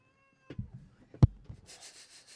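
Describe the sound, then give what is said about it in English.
A pet cat gives a faint, short meow, alongside a sharp tap and soft rustling, all quiet and brief with no talk. “She's doing things that she knows I don't want her to do, so I give her attention. Yes, she is a cat.”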